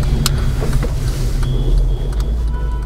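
Steady low engine and road rumble from a car driving in a procession of cars through a Chicago neighborhood, continuous and even in loudness throughout, with no talk.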